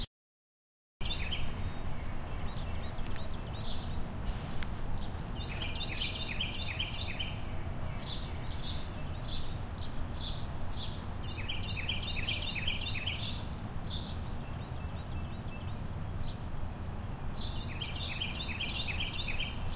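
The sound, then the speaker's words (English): Faint, high bird calls in short chirping, trilled bursts that recur several times over a steady low background hiss. “Let's center to that bird call.”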